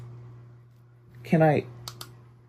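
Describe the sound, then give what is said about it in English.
Two quick, light clicks of the control button on a mist humidifier follow a brief vocal sound, set against a steady low electrical hum. “Well, I've clicked it once. I've clicked it twice. Let's click it a third time.”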